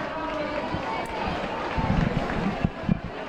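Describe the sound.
Footsteps of people running down a street behind a procession make a quick, scuffing patter. Voices murmur underneath, and a few sharper knocks stand out near the end.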